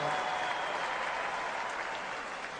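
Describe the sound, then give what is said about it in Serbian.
Audience applause for an orchestra at a tavern performance: dense, steady clapping from a crowd, sustained without a break throughout. “Može li jedan najveći aplauz za orkestar AC Stojneva?”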